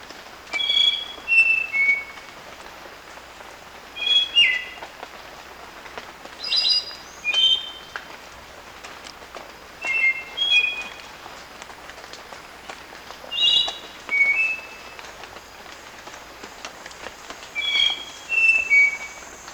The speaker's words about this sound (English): Spotted nightingale thrush, 1.